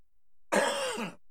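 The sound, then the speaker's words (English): A single throat clearing, a short rasping burst from someone with part of a coffee toffee peanut stuck in their throat, heard alone against quiet. “Sorry, I had one of those coffee toffee peanuts and I think I got part of a peanut stuck in my throat.”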